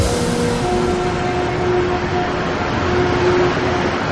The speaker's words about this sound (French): Le légendaire son du métro de Montréal.